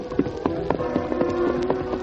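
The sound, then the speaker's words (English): Horse hooves clip-clop as a rider is led into a clearing, about eight even, evenly spaced hoof strikes at a steady walking pace, with no talk. “Prodded along by the guard, Tonto rode into the clearing.”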